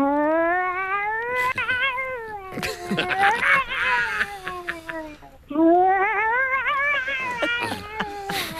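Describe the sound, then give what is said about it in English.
A female cat meows in a few long, drawn-out, wavering cries with rich harmonics. The cries rise and fall in pitch and are loud and strained, with a busier, rougher stretch in the middle. “when it comes to cat sounds, one of the stars of the show over the last few years has been Joe, yes. AKA Big Mama Pussy. Oh, this is her.”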